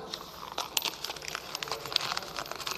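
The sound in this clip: A sheet of paper is crumpled in the hand, giving a stream of faint crinkling and crackling bursts with irregular sharper snaps throughout.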